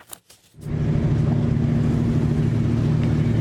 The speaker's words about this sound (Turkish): İtalya'dan Romanya'ya giden 215 metrelik boru döşeme gemisinin geçiş sebebiyle Boğaz çift yönlü olarak trafiğe kapatıldı. Dev platforma kıyı emniyeti ekipleri eşlik etti.